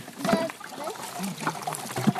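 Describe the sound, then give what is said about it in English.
Apple cider trickling out of the bottom of a wooden crank press as the mashed apples are squeezed, a steady watery pour with faint voices. “there's the cider pouring out the bottom”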